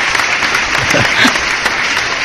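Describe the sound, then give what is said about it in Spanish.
Applause: dense, steady clapping from many hands fills the whole short stretch at an even loudness. “Bueno, pues vamos a dar un aplauso, ¿no?, al señor Mayo, ¿no? Se lo hago yo mismo.”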